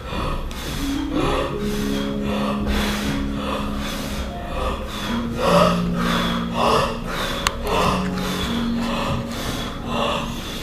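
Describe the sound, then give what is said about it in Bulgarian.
Deep, slow breaths are drawn in and let out during a guided breathing exercise, repeating many times in a steady rhythm. Soft sustained tones hum quietly underneath. “А сега си поеми дълбоко и пак задръж.”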